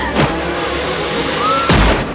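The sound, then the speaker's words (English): Gunfire in a drama scene: two sharp, loud bangs ring out about one and a half seconds apart, each dying away quickly, with a brief thin whistling tone between them. “Sir Luke has tried to intervene but has been shot by Magruder.”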